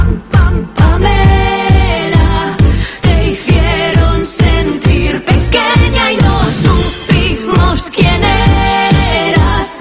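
A loud pop song, the second single from an upcoming album, plays with a steady driving beat and full, dense instrumentation throughout.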